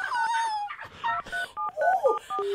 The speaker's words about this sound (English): Let's dial her back, please. Let's call her back.